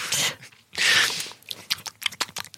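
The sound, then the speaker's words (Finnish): Someone chews and smacks their lips while eating. A couple of broad rustling bursts come first, then many quick, wet mouth smacks and clicks in an uneven run, fairly loud and close, with no talk. “Varmaan maiskuttelen täällä.”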